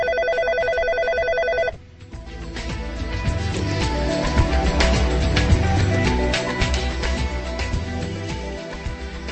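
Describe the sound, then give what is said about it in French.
A telephone ring sounds for under two seconds as a bright, pulsing electronic tone, then music with rhythmic beats takes over and continues loudly to the end. “Allô, allô, allô Paris, ici Prague. Radio Prague appelle le centre tchèque de Paris.”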